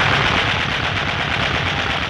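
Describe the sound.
Gunfire from a dramatized battle, as riflemen keep firing on attackers. It comes as loud, dense, continuous rapid shots blurring into a steady roar for the whole stretch, with no voices heard over it.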